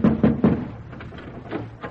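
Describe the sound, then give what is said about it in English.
A riding crop rapping on a glass window pane: three sharp, hollow taps in quick succession, then a few lighter, scattered knocks. “He looks about him, then raises his crop and raps on the pane.”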